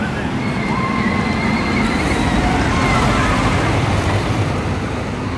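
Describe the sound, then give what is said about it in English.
A car thunders past at a park attraction. Its engine gives a loud, sustained roar that swells slightly midway, over a dense wash of background noise and thin whining tones. “I'm just waiting for a car to thunder past, really, just to get the atmosphere. Here we go, I think. There she is.”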